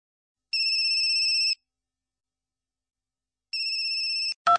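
A phone ringtone sounds in two bright, high electronic bursts of steady ringing, each about a second long and separated by a pause, followed by a short sharp click, with no voices.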